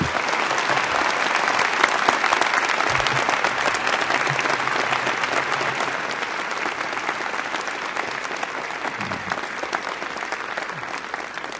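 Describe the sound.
Sustained audience applause welcomes a speaker to Brigham Young University, a dense, steady wash of clapping that holds at an even loudness throughout.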